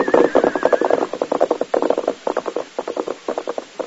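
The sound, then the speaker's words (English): Galloping hoofbeats of horses riding away down a stagecoach road toward Austin. Rapid, rhythmic thuds pound on steadily, clustered in quick repeating beats for the whole stretch. “They rode away, Governor, and the stage came on to Austin.”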